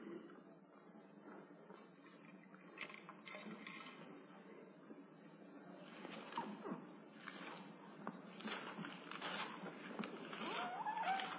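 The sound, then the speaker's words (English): Bible pages turn among an audience during a sermon, a soft, continuous papery rustle with scattered crisper flicks that thickens toward the end. “I know I'm in a Bible preaching place. When you hear the pages turn, I like that.”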